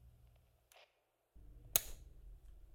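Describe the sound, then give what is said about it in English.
A small tape recorder starts as play is pressed during a police interview: a faint low hum cuts out briefly, then returns with one sharp click, and the machine's quiet hum carries on. “So he places, he slides a small tape recorder towards you and presses play.”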